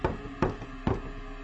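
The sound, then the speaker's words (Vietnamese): Knocking on a door: three sharp, solid raps, evenly spaced at a moderate pace, each with a short ringing tail and no voices. “Lúc này lại có tiếng gõ cửa,”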